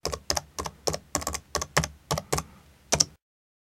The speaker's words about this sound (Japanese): ではキーボードからも入力できますよ。